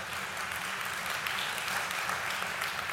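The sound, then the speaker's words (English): Audience applause during a speech: a dense, steady wash of many hands clapping together, loud and sustained for the whole moment. “you should clap for that”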